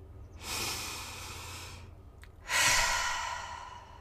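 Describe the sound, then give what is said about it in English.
Two long, slow breaths are heard, a deep breath drawn in and then a deep breath let out, each a soft, airy rush of several seconds with a short pause between them. “I feel like I just need to take, like, a deep breath in and a deep breath out”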